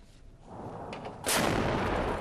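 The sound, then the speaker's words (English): Artillery fire as tanks and fighter jets pound militant hideouts in al-Zabadani, Damascus countryside: a low rumbling background, then a sudden loud blast that swells into a sustained, broad roar. “Tanks and fighter jets continue pounding the hideouts of Takfiri terrorists in al-Zabadani in Damascus countryside.”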